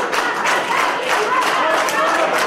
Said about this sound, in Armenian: Երկրորդ նախագահի աջակիցները հոտնկայս ծափողջույններով դիմավորեցին նրան։